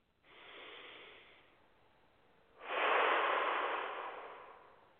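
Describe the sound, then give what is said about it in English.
A deep breath drawn in during a guided breathing exercise: two breathy rushes of air, the first softer and shorter, the second louder and longer, fading slowly. “And deep breath in.”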